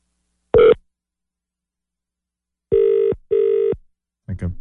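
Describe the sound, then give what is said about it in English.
Electronic tones of a landline telephone number being dialed: a single short beep, then after a pause two longer beeps in quick succession, followed by a brief scratchy burst. “So we're going to dial his landline, see if that works. Wow, he's got a lot of fours in it. And how do I dial?”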